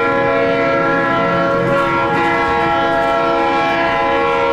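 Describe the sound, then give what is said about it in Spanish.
A train passing along Las Américas sounds a steady, sustained horn chord over a continuous low rumble. The sound stays loud and even throughout. “Órale, pues si no es el tren que pasa ahí por las Américas, tú.”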